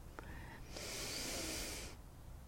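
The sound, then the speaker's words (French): One deep breath taken during a guided relaxation exercise, a soft airy hiss that swells in for about a second before fading, quiet throughout with no talking. “Trois grandes respirations profondes pour éliminer toutes les tensions.”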